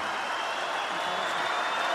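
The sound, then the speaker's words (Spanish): An audience at the Quinta Vergara applauds and cheers as it rises to its feet for a performer, a dense, even and fairly faint wash of clapping that holds steady throughout. “Y así lo percibe la Quinta Vergara y por eso aplaude y por eso vitorea y se para a aplaudirte esta noche.”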